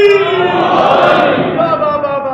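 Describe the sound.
A large crowd roars in unison, answering the Nara-e-Haidari slogan call at a religious gathering: a loud, sustained chorus of voices that swells and holds for about two seconds.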